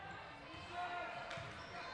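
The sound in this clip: A basketball is dribbled on the court during a girls' high school game, Marquette Catholic at Elkhart Memorial. The bounces are faint and soft under a steady crowd noise.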